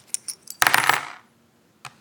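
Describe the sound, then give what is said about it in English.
Brass coins tossed for a Chinese oracle reading clink in a few light metallic taps, then a dense burst of jangling clatter that fades out, with one last faint clink after a short silence. “This begins by tossing brass coins 6 times.”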